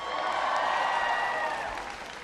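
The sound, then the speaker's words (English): A political audience applauding after an introduction, a full, sustained round of many people clapping that tapers slightly toward the end. “Give Brian a big round of applause for the introduction.”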